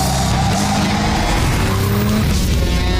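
Roaring street racing car engine with tyre skidding in a video game, a dense continuous loud growl with a squealing, sliding edge throughout and no talk.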